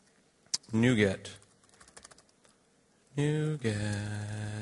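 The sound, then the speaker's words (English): Computer keyboard typing during an on-stage talk: a brief run of light, quick key clicks sits between two longer stretches of loud voiced sound, which largely cover the typing. “I can't type on stage. NuGet. I type like 100 words a minute, but 90 of them are errors.”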